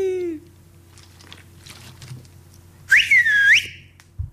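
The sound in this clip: A man whistling to call his daughter, a short, sharp, high whistle that rises, dips and rises again, clear and loud over a quiet low hum, with a brief lower tone at the start.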